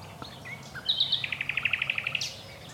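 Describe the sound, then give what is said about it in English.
A nightingale sings at dawn in Dorset, opening with a few scattered whistled notes, then a rapid, evenly spaced run of many bright, high repeated notes that ends in a short upward flourish. “want to leave you with as much nightingale as I can fit in, even though”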